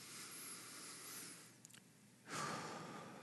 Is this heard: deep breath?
yes